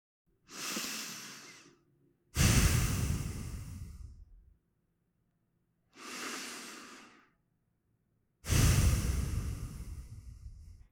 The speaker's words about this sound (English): So if a child is stressed, they might get a video that sounds like this. Let's take a few breaths.